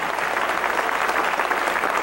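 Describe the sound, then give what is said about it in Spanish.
A church audience claps its hands during a sermon, many palms striking together in a brisk, continuous wash that holds an even level from start to finish. “Dale palmas al Rey porque Él vive.”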